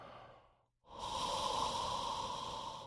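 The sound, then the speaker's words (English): A slow, deep exhale through an open throat, with the head tilted back and jaw relaxed, like fogging a mirror. After a faint breath and a brief silence, a steady, airy whoosh with a soft tonal edge holds evenly to the end. “head tilted back, jaw relaxed, open throat. Breathe down to your core.”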